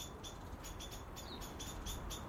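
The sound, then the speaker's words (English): Blackbirds giving alarm calls in a garden: a series of faint, high, sharp chips repeating at an uneven rhythm over a steady background hiss. “There's panic in the garden. The blackbirds are on alert.”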